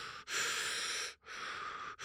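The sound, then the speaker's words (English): Hard, forceful breathing of a person lying down during breath work: a few long, loud rushing breaths follow one another with brief gaps between them, no talk. “an hour and a half of you basically just laying down and breathing really hard, right? And just”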